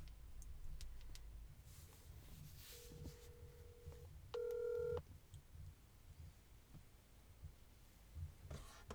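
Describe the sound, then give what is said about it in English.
A phone call placed on speakerphone gives faint, steady electronic dialing tones: one longer beep followed by a brief louder dual-tone beep, over quiet background hiss and clicks. “Let me just call here. And, speakerphone.”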